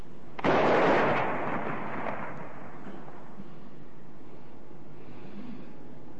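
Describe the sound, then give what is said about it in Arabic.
A cannon fires once to mark imsak, the start of the Ramadan fast, a loud booming blast that fades into a long rumbling decay before a quiet, steady background remains. “مدفع الإمساك”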